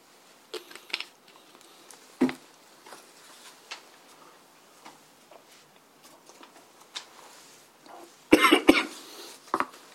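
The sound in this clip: Coughing and throat clearing from someone giving a talk: a few sharp, rough bursts, one near the start and a dense cluster of loud coughs near the end, with quiet rustling in between.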